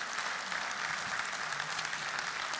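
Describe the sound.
An audience applauds to welcome a speaker onto the stage, a steady, dense patter of clapping that stays fairly faint and even throughout.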